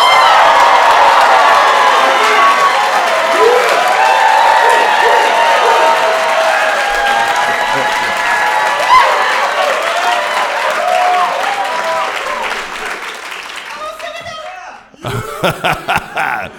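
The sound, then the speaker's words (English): Cheering, whistles and applause from an audience of scholars and friends at a live event at Schwarzman College, Tsinghua University in Beijing, loud at first and slowly dying away before a short pause and a voice speaking. “Let's hear you Schwarzman scholars and other friends make some noise.”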